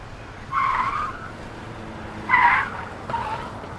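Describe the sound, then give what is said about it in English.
Tires skid as a van drives off in a hasty getaway: three harsh squealing bursts with pauses between them, and no voices. “Colette supporting Aya as Telus Vor took one of his little shortcuts to the van and drove back to pick them up.”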